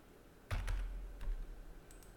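Typing on a computer keyboard that is playing up during a tabletop role-playing game session: a few quiet clicks and taps, the first cluster a little louder, with no talk.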